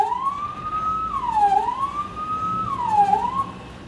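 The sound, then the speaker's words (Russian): Ambulance siren as the vehicle speeds along: a loud wail that sweeps high, drops and climbs again in two slow cycles over a low rumble of traffic. “Мчит скорая.”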